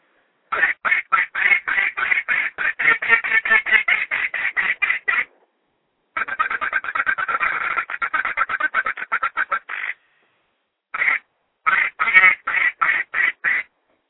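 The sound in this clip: A game call is blown in rapid quacking runs, with many short, bright, duck-like notes in three groups. The first two groups are long and steady, and the last is a shorter set of bursts after a pause.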